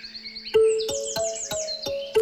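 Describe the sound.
Songbird-like chirping from a bird of paradise: bright, high warbling phrases that repeat quickly over a steady lower tone, with a few sharp accents along the way.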